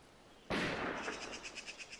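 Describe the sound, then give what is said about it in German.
Gunfire from Klingsel: one sharp, loud blast followed by a long rumbling tail that pulses in a faint, regular rhythm as it slowly fades. “In Klingsel schießen sie wieder.”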